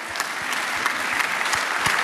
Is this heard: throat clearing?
no